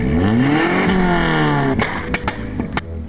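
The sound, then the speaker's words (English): A car engine with a backfiring carburetor: a loud, rumbling drone that shifts slightly in pitch, then a few sharp, cracking pops burst through in the final second and a half. “I hate backfiring carburetors.”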